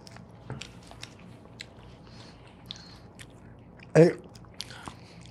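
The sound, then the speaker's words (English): A single crisp bite as someone tries Vegemite, a short sharp crunch standing out against faint, scattered mouth clicks and quiet background. “So let me fucking try this shit out here. Fuck. All right, so I got this Vegemite.”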